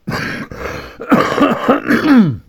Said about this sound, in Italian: chiedo scusa, purtroppo sapete, ho la tosse